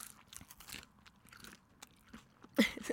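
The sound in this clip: Crunchy bacon-like strips made from banana peel are bitten and chewed, with soft crunching chews at first and then a louder, crisper bite near the end, and no talk over it.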